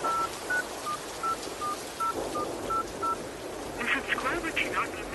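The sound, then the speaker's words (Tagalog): Telephone keypad tones as a number is dialed: a quick, even run of many short beeps at a steady moderate level, followed by a brief burst of other sound near the end. “Sandali lang po at susubukan kong tawagan si tatay.”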